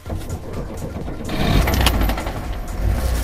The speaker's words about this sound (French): Nikolaï Veramenka démarre sa Lada Jiguli de 1983.